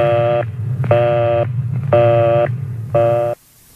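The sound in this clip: Telephone busy signal on a rotary-dial line: four evenly spaced, buzzy tone bursts with short gaps, loud over a steady low hum, then the line cuts to near silence.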